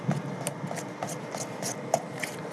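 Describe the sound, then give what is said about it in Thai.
Batter is stirred by hand before a mixer is used, giving faint, repeated soft scraping and rubbing strokes in a loose, steady rhythm. “ยังไม่ใช้เครื่องผสมนะครับเดี๋ยวขออนุญาตกวนสักนิดนึงให้เนื้อเขาเข้ากันก่อนนะครับ”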